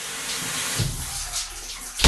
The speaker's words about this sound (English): So that was my shower. I timed it on my iPhone.